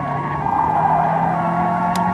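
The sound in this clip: Steady car engine hum with low droning tones, the car driving and turning right while chasing a fugitive. The sound stays even and moderately loud throughout, with no voices.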